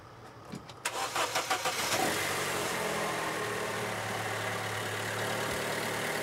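Starter solenoid of a car with a weak battery gives a quick burst of several rattling clicks when the key is turned, followed by a steady, droning mechanical hum with no voices.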